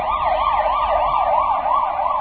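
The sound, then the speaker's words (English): An emergency vehicle siren wails, its loud pitch sweeping rapidly up and down in an even, repeating cycle of about five sweeps that runs steadily throughout. “I love that siren. That siren I like. Why don't we have that siren in the States?”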